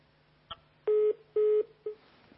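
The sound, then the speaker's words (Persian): A telephone line tone sounds after the caller hangs up. A click is followed by two steady beeps and a shorter third, evenly spaced, with no talk. “خب قطع کردن تلفنشون”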